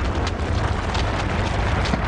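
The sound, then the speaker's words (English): A mountain blasted apart collapses into dry, light brown rubble with a dense roar. A loud, continuous low rumble carries crackling debris steadily from start to end. “A mountain is blasted apart and collapses in dry, light brown rubble.”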